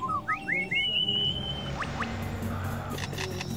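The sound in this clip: A male bird in mating season mimicking a camera shutter: a few quick rising whistled notes, then a couple of swooping calls and a run of sharp mechanical clicks.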